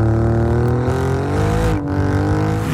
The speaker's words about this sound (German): Der Alfa Romeo Sound.